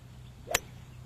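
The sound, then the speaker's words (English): A golf club strikes a golf ball in one sharp crack on a swing practice outing, brief and alone over a low steady hum. “Let's see how the golf ball goes.”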